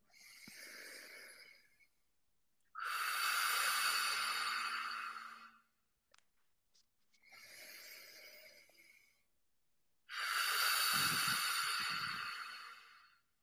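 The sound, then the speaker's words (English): Slow, deep breaths during a breathwork exercise: four long, airy, hissing breaths of two to three seconds each, separated by short pauses, with no talking. “So even with those six breaths, which is really not very much, you can already feel it, right?”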